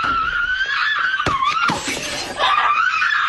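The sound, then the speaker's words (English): A woman screams through a short social-media video, a sustained, high-pitched wavering cry that carries loudly and continuously from start to finish. “screaming her way through a TikTok video”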